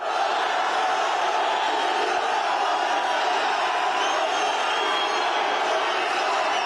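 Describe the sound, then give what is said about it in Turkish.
Fans chanting for footballer Mohamed Salah as he arrives at Trabzon airport, a loud, dense crowd roar that holds steady and continuous the whole time. “Salah'ın üçlü çektirdiği taraftarlar "Ya Allah Bismillah Muhammed Salah" tezahüratlarında bulundu.”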